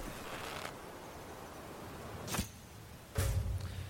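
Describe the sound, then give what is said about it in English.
A bow shot in a video game: two brief, sharp sounds, likely the string's release and the arrow's hit, cut through a steady low background hiss a little under a second apart. “Now I'm sneaking here. There's not much cover. I'm going to try to take a long shot here with this bow.”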